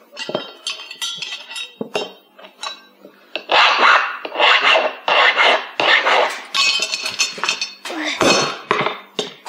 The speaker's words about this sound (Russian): Папа, я уже затянул эту гайку. А молодец, Чуча. Дай-ка мне разводной ключ.